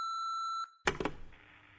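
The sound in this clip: A voicemail new-message beep rings out as one long, steady, high electronic tone, followed by a short noisy rustle of handling.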